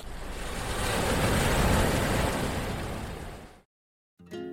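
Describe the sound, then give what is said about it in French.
Sea waves: one broad surge of surf rises slowly, peaks, then recedes into silence. “Et puis, voici la mer.”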